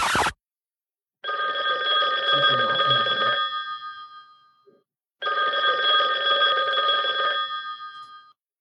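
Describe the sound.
A telephone rings with an incoming call in two long, loud ringing bursts separated by a pause. Each burst is a bright, steady, buzzing ring, and no voices are heard.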